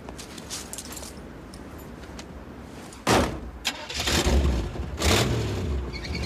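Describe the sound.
A car engine runs as a parked car is kept warm. A quieter low rumble gives way after about three seconds to louder, uneven surges of engine noise that rise and fall to the end.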